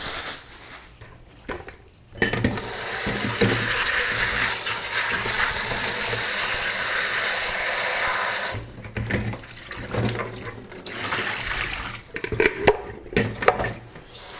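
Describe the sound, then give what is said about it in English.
Tap water gushes into a sink as sandy arugula greens are rinsed, a steady loud rush of running water that later turns irregular, with uneven splashes and sloshing. “because my arugula is gonna take a second to rinse. Arugula is another one of those really sandy greens. So we wanna give it a couple good rinses.”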